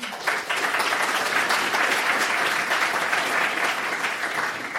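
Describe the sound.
Audience applause welcomes a speaker at a socialist political meeting. Dense, continuous clapping holds steady and loud from start to finish.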